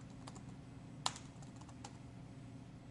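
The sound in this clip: Faint typing on a computer keyboard: a few soft keystroke taps with one sharper click standing out, over a low steady hum.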